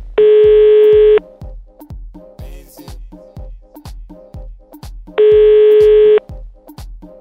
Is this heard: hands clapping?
no

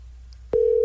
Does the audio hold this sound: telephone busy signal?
yes

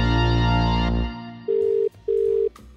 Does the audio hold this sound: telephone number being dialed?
yes

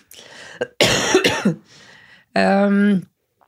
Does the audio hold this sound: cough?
yes

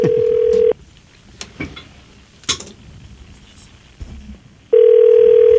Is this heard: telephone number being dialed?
yes

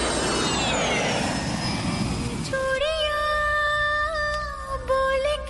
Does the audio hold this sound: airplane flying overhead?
yes

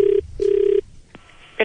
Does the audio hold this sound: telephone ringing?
yes

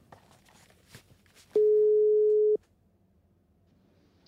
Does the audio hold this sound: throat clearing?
no

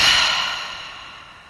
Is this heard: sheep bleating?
no

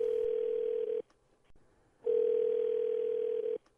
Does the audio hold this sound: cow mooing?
no

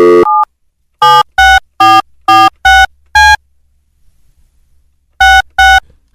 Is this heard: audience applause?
no

